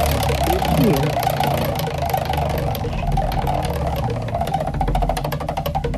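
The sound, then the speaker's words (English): A prize wheel is spun for a birthday giveaway. Its fast, regular clicking shows in the second half, partly masked by a loud, dense rumbling backdrop. “Hey, let's spin that wheel for you”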